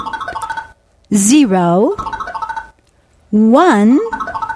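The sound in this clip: Bursts of rapid electronic keypad beeps as numbers are punched into a vault machine, alternating with two longer warbling, boing-like electronic tones.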